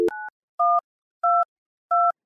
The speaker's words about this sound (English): I dialed the number.